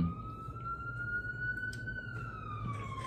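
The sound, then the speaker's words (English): An ambulance siren passing by, a single wailing tone that climbs slowly in pitch, holds, then falls away, sounding clearly over a low, steady background rumble. “wait for this ambulance to pass.”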